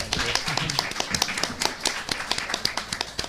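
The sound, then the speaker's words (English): Audience applause at a presentation marking an ebook debut, with dense, rapid clapping from many hands held at a steady level for about three seconds. “Are we allowed to have a second round of applause for the ebook?”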